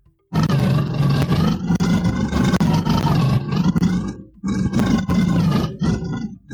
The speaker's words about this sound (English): There he is. That's your friend. That sounds like a Hodag to me. He sounds more sad than when we left him.